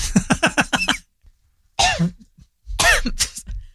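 Coughing from food caught in the throat: a quick run of short, sharp coughs, then two longer, harsher hacking coughs after a brief pause, loud and with no talk.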